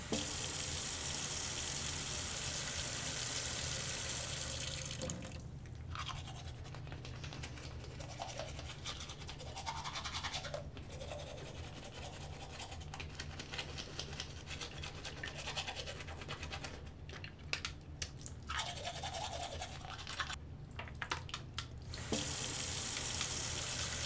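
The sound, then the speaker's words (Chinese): Tap water runs into a bathroom sink, then a toothbrush scrubs teeth with toothpaste in uneven strokes with brief pauses, and the tap gushes again at the end. The sounds are steady and fairly quiet, with no voices. “牙膏我已经帮你挤好啦，就放在洗手台上。你先去洗漱吧”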